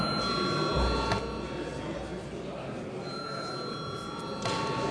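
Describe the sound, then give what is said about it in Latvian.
An electric bell rings in a parliament chamber to call members before a vote: a steady, sustained ringing that holds at an even level throughout, with no voices. “lūdzu zvanu”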